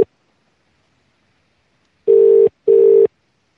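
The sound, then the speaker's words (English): Ringing on a telephone line, heard from the caller's end: after a short silence, one double ring of two brief, steady buzzing pulses in quick succession. “How many times do you have to ring the phone before you pick up?”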